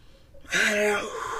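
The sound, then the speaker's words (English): A man draws a deep breath: a brief, sharp, partly voiced gasp of inhalation lasting about half a second, trailing into softer breathy air. “Okay, before we go, let's take a deep breath, man.”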